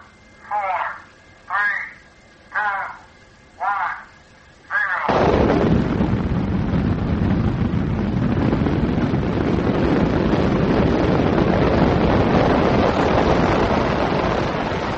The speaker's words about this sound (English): It is of a missile being launched from the ground. We did it outside.